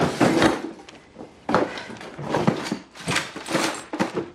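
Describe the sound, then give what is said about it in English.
Rummaging through a kitchen drawer: a few bursts of rattling, clattering objects and wooden knocks, rising and falling in loudness with brief pauses between. “He searches through a kitchen drawer.”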